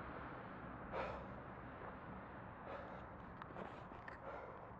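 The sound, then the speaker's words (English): Soft breathing over quiet room ambience, a few faint breaths rising above a low, steady background hiss. “Breathing, also ambience, in case you're wondering.”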